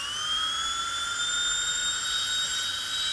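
A dentist's drill from Belgium whines at a high, steady pitch, a thin continuous tone with bright overtones that holds unbroken throughout, with no voices.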